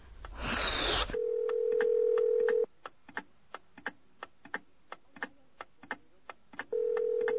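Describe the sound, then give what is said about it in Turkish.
A telephone ringback tone on an outgoing call: after a burst of noise, a steady low tone sounds for about a second and a half, gives way to a run of regular ticks, then starts again. “Hadi aç şu telefonu”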